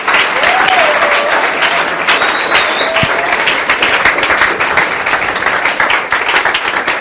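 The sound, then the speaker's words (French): Loud, sustained applause and cheering from an audience during a worship service, with dense clapping throughout and a few high whoops rising above it. “Waouh, est-ce que tu peux acclamer le Seigneur?”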